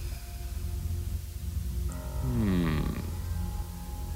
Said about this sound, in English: What was that thing at the start? Yeah, there was a bit of an inhale.